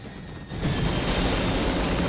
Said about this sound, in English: The choppers sink lower again to resume their pursuit.